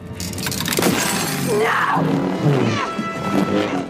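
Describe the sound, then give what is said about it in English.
A Wayfinder device is crushed in a hand and shatters in a film sound effect set in a smashed-up throne room. Glassy crackling and breaking textures run for about four seconds, mixed with swelling tonal sweeps. “Kylo, with his super strong force hands, crushes the Wayfinder.”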